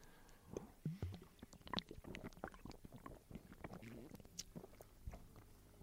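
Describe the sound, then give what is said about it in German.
Quiet, wet mouth sounds of someone taking a sip of a drink: soft slurping, lip smacks and swallowing noises over faint breathy whispering. “Dann trinken wir aber erst noch mhm. einen, einen Schluck. Ich habe nämlich Durst.”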